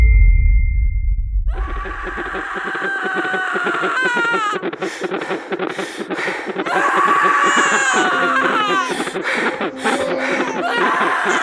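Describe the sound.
A newborn baby girl cries in repeated high, wavering wails. After a short low rumble at the start, the crying runs loud and almost unbroken to the end, with sobbing breaks between the cries.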